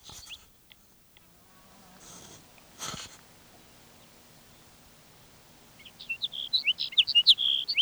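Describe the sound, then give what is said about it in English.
Sage sparrow song: a quick run of high, chirpy, tinkling notes that comes in near the end after several seconds of quiet background hiss and a few soft rustles. “Sage Sparrow number one.”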